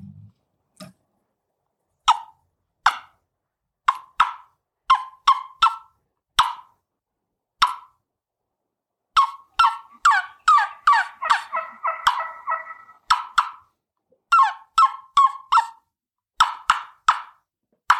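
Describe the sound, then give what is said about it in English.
An imitation of a hen turkey yelping softly on a spring morning: many short, hollow, clucking yelps in quick clusters of two to five, with brief pauses between the groups and no other sound. “reproduce the sounds of a spring morning when a hen's yelping softly?”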